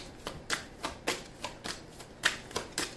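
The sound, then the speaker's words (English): Tarot cards handled and drawn from a deck: a series of soft, crisp papery flicks and snaps at a fairly regular pace, faint and alone. “I'm about to actually take a card.”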